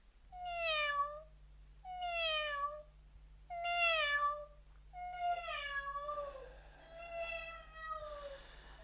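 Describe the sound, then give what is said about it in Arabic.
A gentle cat meows repeatedly. It gives a faint series of drawn-out meows that fall in pitch, spaced roughly a second apart, alone over a low steady hum. “فتمثل في صورة قطة وديعة تنتقل بين الجميع في قفزات سريعة.”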